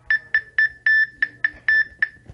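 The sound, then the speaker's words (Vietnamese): Error beeps from a key-card scanner at an apartment door: eight sharp, high-pitched electronic beeps in a quick, fairly even series, a couple held slightly longer, sounding alone over a faint low hum. “cửa căn hộ của Lục Phong bất chợt vọng ra một tiếng kêu chói tai.”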